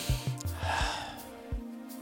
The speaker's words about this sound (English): Take a breath.